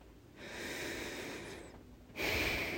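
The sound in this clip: A deep breath is drawn in and let out: a soft, airy rush of inhaling, a short pause, then a louder breathy exhale, with no talk.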